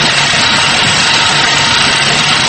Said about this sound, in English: It's impossible. This bike is too noisy. I can't hear the TV.